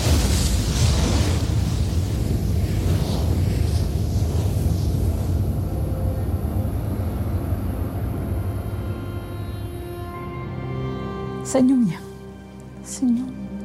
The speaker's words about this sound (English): One of Morowali's Chinese-owned nickel smelters explodes catastrophically.